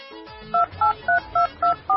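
A telephone number is dialed on a keypad: six loud, evenly spaced dialing tones beep in a steady rhythm, each lasting a fraction of a second, with only faint low noise between them.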